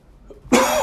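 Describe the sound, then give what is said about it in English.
A single harsh cough bursts out after a brief near-silent moment and stays loud and rough until the end. “would not be an episode without me coughing”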